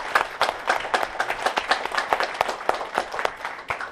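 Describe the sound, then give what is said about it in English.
Audience applause at an Atomy corporate event, answering a call to applaud the company chairman: many hands clapping in a dense, lively patter of distinct claps, fairly loud and steady throughout, with no talking over it. “Let's give the CEO, Chairman Hongil Park, another round of applause.”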